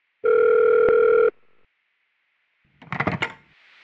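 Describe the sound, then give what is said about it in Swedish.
A telephone voicemail call tone: one steady, loud electronic beep lasting about a second, followed after a pause by a brief noisy clatter. “Vänta, innan vi dyker ner i det, låt oss ta ett snabbt samtal från röstbrevlådan.”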